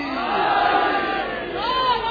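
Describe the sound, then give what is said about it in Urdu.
A crowd at a religious gathering chants a religious slogan together, many voices in a loud sustained shout that swells twice with a short dip between. “سارے مل کے مل کے، یوں نہیں، بکھرا ہوا نعرہ نہیں چاہیے،”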